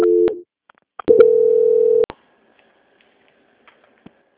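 Telephone tones while a call is transferred: a short steady tone, a pause, then a longer steady tone of about a second, followed by faint scattered clicks on the line.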